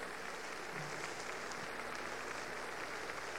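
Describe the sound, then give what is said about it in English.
Applause from the Severance Hall concert audience as a soloist comes to center stage, a continuous, even patter of many hands clapping at a moderate, unbroken level throughout. “Once again, Edith Peineman comes to center stage to accept the applause of the Severance Hall audience.”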